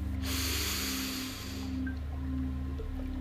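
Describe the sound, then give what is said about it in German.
Deep breathing, in through the nose and out through the mouth, as part of a guided eyes-closed relaxation: a loud, airy breath followed by a softer, quieter stretch, over a steady low hum. “Atme dreimal tief durch die Nase ein und durch den Mund wieder aus.”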